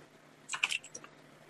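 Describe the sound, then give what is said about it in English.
Typing on a computer keyboard makes a short burst of a few quick, crisp key clicks, faint and with nothing else, then quiet. “I'm just typing this up to you in DMs, I guess.”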